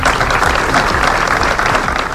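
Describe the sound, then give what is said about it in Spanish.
Applause breaks a minute of silence at a vigil held in front of a town hall for affected families and neighbours: loud, dense, steady clapping from a gathered crowd, continuous throughout with no voices standing out. “Guardaban un minuto de silencio roto solo al final por aplausos.”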